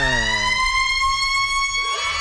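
A siren in a radio station jingle: a loud, steady wailing tone with rich harmonics that bends upward near the end, with a low rumble underneath at the start.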